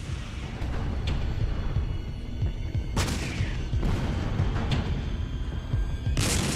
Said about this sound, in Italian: Vennero sparati diversi colpi e Bolt mise a segno un colpo diretto.